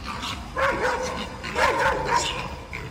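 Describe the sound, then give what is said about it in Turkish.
Dogs, one of them a Kangal, bark and yelp while attacking a wild boar that was foraging for food on a street. A few sharp, tonal bursts rise over steady background noise. “Sokakta yiyecek arayan yaban domuzu, biri kangal cinsi iki köpeğin saldırısına uğradı.”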